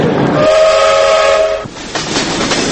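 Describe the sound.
A train travels to Mostar with a steady, loud rumble, and a horn tone sounds for about a second over it before the rolling noise continues alone.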